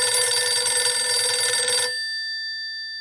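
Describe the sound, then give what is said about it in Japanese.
A telephone rings with a bright, steady electronic bell tone that stops abruptly partway through and leaves a faint fading tail. “電話がかかってきまして”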